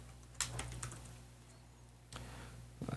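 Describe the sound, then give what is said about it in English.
Typing on a computer keyboard: a few quiet, sparse keystroke clicks in small clusters separated by pauses, over a low steady hum. “Sure. Let me just type that up. Control F it.”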